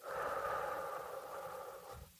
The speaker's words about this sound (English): Breathe in, breathe out, breathe in, breathe out,